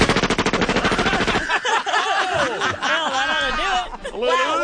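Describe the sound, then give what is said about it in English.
Rapid automatic fire from an Uzi submachine gun: a fast, evenly spaced rattle of loud shots lasting over a second, followed by voices and laughter. “A little Uzi breaking up a little something, taking care of business. I did some shots.”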